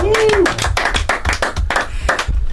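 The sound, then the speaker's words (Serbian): An audience applauds after a keyboard solo at a live concert, with loud, dense clapping in fairly regular pulses. A brief voice is heard at the start. “Fantastičan solo, molim vas aplauz za Lazara.”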